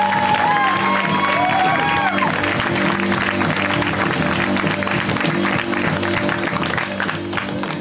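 Applause and cheering from a comedy show audience as a comedian takes the stage: dense, continuous clapping mixed with whoops, loud and steady for the whole stretch and easing only slightly near the end.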